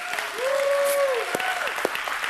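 An audience applauding and cheering for a remote campus, with dense steady clapping throughout and a sustained cheer rising and falling over it.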